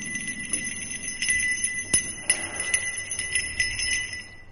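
A temple bell rings with a sustained high, bright tone, accompanied by wooden fish knocks. Several sharp strikes recur across a steady metallic shimmer.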